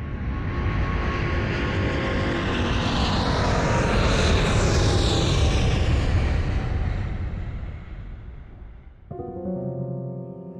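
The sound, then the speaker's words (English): An airplane departs on a flight to Hollywood, its loud, broad engine roar building steadily and then fading, before a different tonal sound takes over at the end. “flight 613 with service to Hollywood is ready to depart, so please fasten your seatbelt. Put your tray tables and seat backs into their fully functional, upright, and tucked positions, because here we go!”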